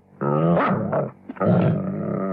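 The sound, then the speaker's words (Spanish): A dangerous dog growling and snarling: two loud, rough growls separated by a brief break, with no voices. “Ese perro es un animal peligroso.”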